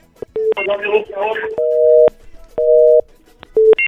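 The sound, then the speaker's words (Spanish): A telephone call is placed and meets a busy signal. A few short electronic beeps and a brief garbled burst come first, then two steady flat tones separated by a gap, followed by more short beeps. “Otra más, flaco, para hacer la séptima llamada”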